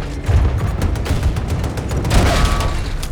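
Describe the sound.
Rapid video game gunfire during a tank battle, a dense, continuous barrage of loud shots with no pause.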